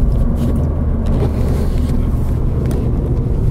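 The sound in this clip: Car engine pulling hard under acceleration through the gears, a loud, continuous low rumble and growl that stays steady throughout, with no voices.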